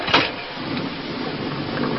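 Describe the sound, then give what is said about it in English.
A small engine starts up to haul an ore cart by rope out of a mine tunnel, giving a brief louder burst and then a steady, rough mechanical whirring drone. “As soon as I start this engine, the cart will be hauled out. Here it goes.”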